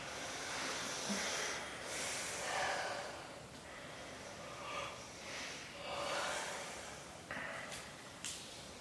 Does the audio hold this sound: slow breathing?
yes